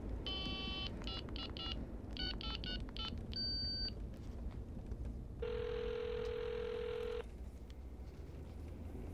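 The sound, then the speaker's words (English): A phone is dialed and rings: a quick series of short keypad beeps in uneven groups, then a single long ring tone, all faint over a steady background hiss. “How do you work this thing? Dial the number, hit send.”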